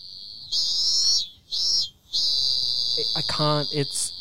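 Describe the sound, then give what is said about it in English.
Cicadas chirp in the background of an outdoor scene, a shrill, high, steady buzzing drone that breaks off twice and then carries on, with other fainter sounds mixed in near the end. “I think it's meant to be like cicadas. I looked it up. Yeah. It's meant to be cicadas.”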